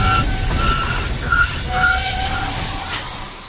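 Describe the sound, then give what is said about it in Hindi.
A train brakes after its emergency chain is pulled: the wheels give shrill, high squeals in repeated bursts over a steady low rumble of rolling carriages. “Ashfaq train की chain खींच चुके थे।”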